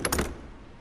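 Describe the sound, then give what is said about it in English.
A doorknob being twisted and rattled gives a short, bright metallic burst lasting a fraction of a second. Quiet background follows. “As he gets closer, he sees the doorknob turn as if someone outside were twisting it.”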